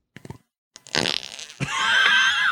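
FLARP noise putty is squeezed to make fart noises: a few short wet sputters, then a longer rumbling squelch, and finally a loud sustained flapping blat with a high squeaky edge that runs to the end.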